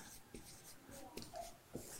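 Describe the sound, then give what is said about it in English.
Faint writing by hand gives a few short, scratchy strokes with light squeaks, spaced unevenly over a quiet background. “I'm sorry, I have to write this so low.”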